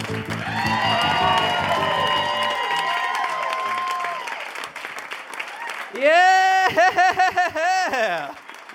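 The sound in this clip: An audience at a Melbourne Comedy Festival show cheers and applauds in a loud, continuous crowd roar, with a man talking early on and then shouting several times over the noise near the end.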